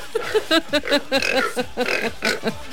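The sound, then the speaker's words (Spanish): Pig oinking in a fast, rhythmic run of many short nasal grunts, each one clipped and evenly spaced, steady in loudness with no talk over them. “Ahí se escucha un puerquito.”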